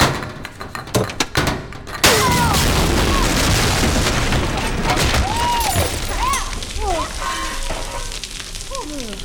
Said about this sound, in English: Prop the cabinet up with a chair leg so we can pitch one grenade in to set the others off. Okay, clear the room! Fire in the hall!